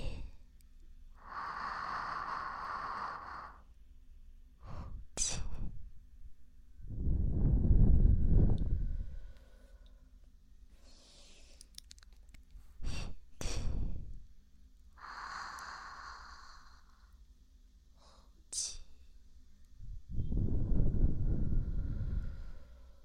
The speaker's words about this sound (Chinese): 看着我的眼睛，然后深呼吸，吸气。